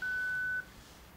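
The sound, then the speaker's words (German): An answering machine signal tone before a message is left: one steady, clear mid-high beep holds for just over half a second, then stops, leaving only a faint hiss. “Ich bin nicht zu Hause. Sie können mir nach dem Signalton eine Nachricht hinterlassen.”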